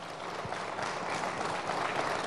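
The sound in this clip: Studio audience applause greets the state Congress party president joining a Hindi television debate, a steady, moderately quiet wash of many claps that stays even in level from start to finish.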